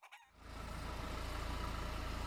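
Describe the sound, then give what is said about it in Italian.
Hens clucking and flapping their wings on a farm: a dense, steady flurry of rustling and clucking that starts abruptly and holds at a loud, even level with a low rumble underneath. “Le galline lo guardano e agitano le ali. «Cuccudà! Cuccudà!»”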